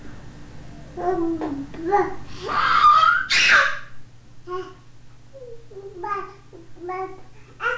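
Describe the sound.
A baby boy babbles and blows air through his lips in short voiced bursts, with one louder, higher squeal partway through, then a few softer babbles in an uneven rhythm.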